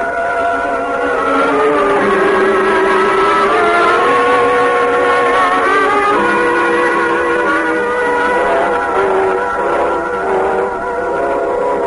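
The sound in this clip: A jeep drives across a field with a loud, steady engine drone whose layered harmonic tones waver and shift in pitch, with no talk over it.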